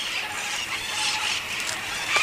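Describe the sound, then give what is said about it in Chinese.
Noisy parrots feeding in a maqui, or Chilean wine berry, tree: a dense, continuous mass of harsh squawks and chatter from many birds at an even, moderate loudness. “马蹄梅又称智利酒果，是一种古老的树种，为喧闹的鹦鹉提供了盛宴。”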